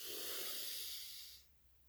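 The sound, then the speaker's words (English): A deep breath taken during a guided breathing exercise, heard as a soft, airy rush lasting over a second before it stops. It is quiet and stands alone, with no talking. “let's breathe, take a deep breath.”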